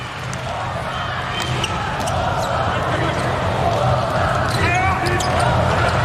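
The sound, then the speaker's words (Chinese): A volleyball serve at set point in a professional match: sharp slaps of hand and ball cut through a loud, steady arena crowd roar that continues throughout. “局点啊， 好像塞梅纽克的发球。”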